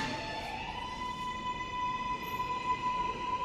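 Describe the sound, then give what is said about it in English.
A train's steady rolling rumble with a thin, high, constant whine, continuous and fairly faint throughout. “hop on this train.”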